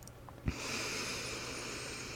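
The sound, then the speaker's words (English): A deep breath in during a guided relaxation exercise: a soft brief click, then a steady airy hiss held for nearly two seconds, quiet and alone with no talk. “Last one, breathing in”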